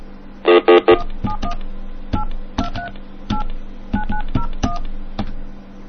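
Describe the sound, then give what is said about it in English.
Telephone keypad tones from dialing a number: a quick run of many short two-tone beeps at an uneven pace, over a low steady hum. “Let's call. I want to call 2 numbers from Decoder, and I heard these are really good, so hold on 1 second.”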